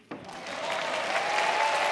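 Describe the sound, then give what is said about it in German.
An audience at a stage show breaks into clapping that begins with a sudden onset. It swells over the first moments and then holds as dense, even applause to the end. “Und ich weiß, warum Sie klatschen.”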